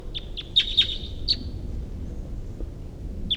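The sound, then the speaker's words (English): A wild bird calls with several short, high, thin chirps bunched close together at first, then one more after a pause. The chirps are fairly faint over a low background rumble. “Headed in the direction of the wild bird here.”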